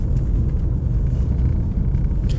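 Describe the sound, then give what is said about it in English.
Steady low road and engine rumble inside a car being driven to the gym early in the morning, continuous and even throughout, with no talking. “I am driving.”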